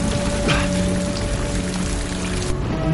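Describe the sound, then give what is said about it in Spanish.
Heavy rain pours down in a dense, steady patter that stays loud and even throughout, with no voices. “La lluvia es copiosa.”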